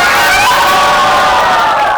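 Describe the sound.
A live audience cheering at a show, a loud, continuous roar of shouts and whoops from many voices, steady from start to finish.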